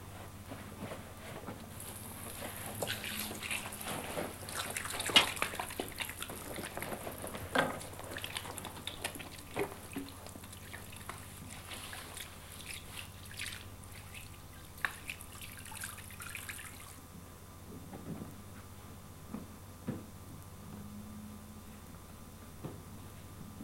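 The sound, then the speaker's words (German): Running water at a sink as a doctor washes hands during a patient examination: a faint, steady hiss with irregular small splashes for most of the stretch, then the flow stops, leaving only quiet, scattered drips. “Ich wasche mir nur kurz die Hände.”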